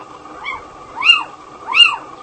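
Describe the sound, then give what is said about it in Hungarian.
A little owl gives three mewing calls that rise and fall in pitch, spaced well apart. The first call is faint and the next two are louder, heard alone over a low background hum. “A kuvik az egy olyan kis bagolyfajunk, amely kevésbé ismert az emberek körében.”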